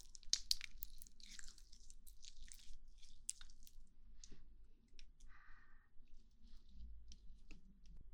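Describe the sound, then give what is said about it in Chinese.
Lavender essential oil being spread on skin during a massage: faint, irregular wet squishes and soft clicks, quiet throughout with no talk. “先给您把精油涂上，”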